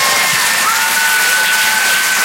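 Audience applause at a comedy show in Dijon, with loud, dense and continuous clapping and crowd cheering.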